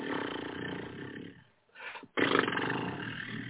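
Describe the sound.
A voice imitates a lion or tiger roar: two long, raspy, growling bursts separated by a short pause, the second one louder and more forceful.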